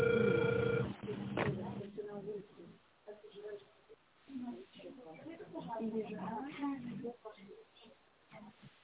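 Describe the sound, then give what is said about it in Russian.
Telephone ringback tone while a call connects: a steady, mid-pitched tone lasting about a second at the start, after which a voice speaks over a quiet line. “Я продолжаю дозвон. Пожалуйста, подождите немного.”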